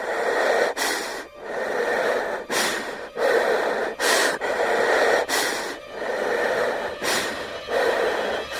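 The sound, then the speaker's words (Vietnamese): Heavy breathing from a terrified person: loud, rasping breaths in a steady, regular rhythm, each inhale and exhale a drawn-out, noisy rush of air with brief pauses between, heard alone. “Về sau thấy ghi tiếng hít thở nặng nề.”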